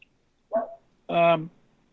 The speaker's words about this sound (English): That's the dog. The dog's in the background.